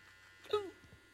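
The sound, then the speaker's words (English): Faint electric clipper buzz as a barber lines up a moustache during a fade haircut, a low steady hum with one brief louder swell, with soft voices. “It's very interactive shaving.”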